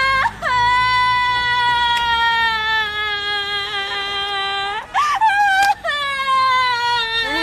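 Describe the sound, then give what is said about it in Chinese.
A woman wails and sobs in long, drawn-out, high cries that slowly sag in pitch, broken by a sharp gasping catch before the wailing resumes. “行了，别哭了，我的妹妹哟。要咱进屋哭去吧，啊？”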